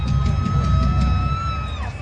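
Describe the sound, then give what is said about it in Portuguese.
Concert crowd cheering and roaring as Linkin Park start their set: a steady, dense wall of crowd noise with a deep rumble, and faint sustained tones ringing above it throughout. “E a reação do público. E agora vamos ouvir a reação.”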